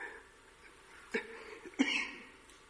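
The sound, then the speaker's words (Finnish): Two short, quiet throat-clearing coughs from a tickling throat, spaced less than a second apart, with faint low background noise around them. “Anteeksi. Alkaa niin kurkkua kutittaa, että pitäisi hirveästi rykiä.”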